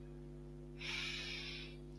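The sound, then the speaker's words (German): A long, deep breath in during a Kundalini yoga practice: a soft, airy inhale of about a second rises over a steady low electrical hum, quiet and without talk. “Erst einmal möchte ich, dass du einen langen, tiefen Atemzug nimmst”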